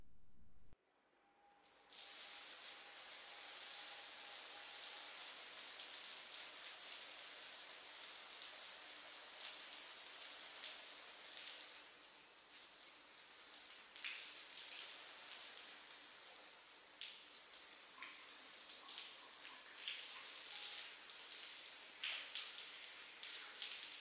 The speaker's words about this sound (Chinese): 差不多了，开始冲泡泡，不准乱动。